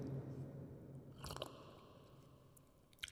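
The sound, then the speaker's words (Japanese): Quiet bites and chewing of a cream puff eaten with coffee, soft and muffled, with a crisp burst of crunching near the middle and another short burst at the very end. “コーヒーとシュークリーム、なんかシュークリームの食べてる音って洞窟みたいな、洞窟なの。”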